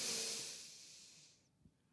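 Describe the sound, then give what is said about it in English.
A deep breath drawn slowly in as a soft, broad airy hiss that fades over about a second and a half, followed by near silence with a couple of faint low thumps. “Take a deep breath, inhale.”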